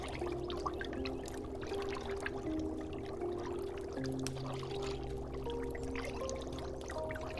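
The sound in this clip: Liquid pours in a continuous, even stream while a tranquility potion is poured and stirred, a steady trickling wash that runs without pause and holds a constant level throughout.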